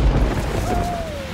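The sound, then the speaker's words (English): Steady rain hisses over a deep, rolling low rumble like thunder, forming a dense, continuous wash of noise with no clear individual drops. “it's raining.”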